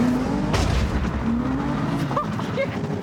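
A car tyre skids until it comes off the rim on a 350, making a rough, sustained roar of engine and scrubbing rubber with a whining tone. Short squeals come near the end.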